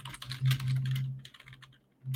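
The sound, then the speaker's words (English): Typing on a computer keyboard: fast, uneven bursts of light clicking keys, with a steady low hum underneath throughout. “I'm just terrible at typing.”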